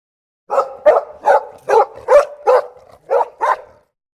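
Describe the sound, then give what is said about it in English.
A dog barks eight times in a steady series of sharp, mid-pitched barks with a short gap before the last two. No other sound is heard. “Dog.”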